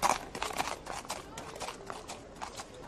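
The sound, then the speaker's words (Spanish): Horses' hooves clop in many quick, irregular impacts, faint and continuous, over a soft background hiss. “Bueno, porque sus caballos me asustaron, por eso estoy gritando.”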